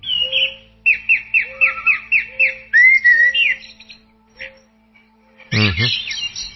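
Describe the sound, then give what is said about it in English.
Birdsong played on a London radio station that broadcasts only bird songs: a run of quick, repeated, clear whistled notes, then a rising whistle, and a harsh, loud squawking call near the end. “there is a radio station in London that just plays bird songs. Yes, it's absolutely true. Just bird songs, that's all they play.”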